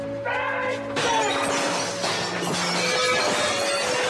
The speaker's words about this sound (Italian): Con un balzo degno di Tarzan, principiò a spaccare i vetri delle finestre del piano terreno che erano due per facciata